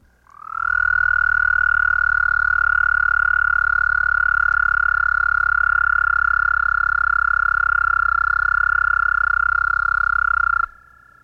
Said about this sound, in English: American toad.